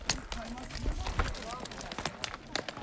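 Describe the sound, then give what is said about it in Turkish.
Footsteps climb rocky steps on a hiking trail in a steady series of hard, clacking treads while a voice talks over them. “Evet, yine basamaklar başlıyor. Evet, ilk basamaktan çıkıyoruz, yeniden basamaklar.”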